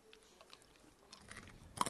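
Crunching bites of a crispy dried shiitake mushroom snack seasoned with soy sauce: faint, quiet mouth noises at first, then a few sharper, brittle crunches in the second half, with no talking.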